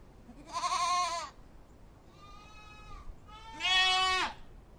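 Sheep and goats in a livestock herd bleating: three wavering calls, the first and last loud and nasal, with a fainter, thinner one between them over a quiet background.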